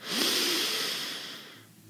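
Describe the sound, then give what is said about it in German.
Long inhale through the nose during a guided breathing exercise: a loud, airy hiss swells quickly, then slowly fades over almost two seconds. Heard alone, with no talking. “Wir schließen gemeinsam die Augen und wir atmen gemeinsam durch die Nase ein”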